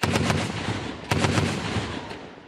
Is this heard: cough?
no